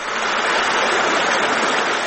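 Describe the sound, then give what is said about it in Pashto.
Water from a permanent mountain stream in the hills of Khost province's Tani district flows in a steady, dense rushing hiss, loud and unbroken throughout. “دا د خوست ولایت د تڼیو ولسوالۍ اړوند د نریزي له غرونو بهیدونکي دایمي اوبه دي”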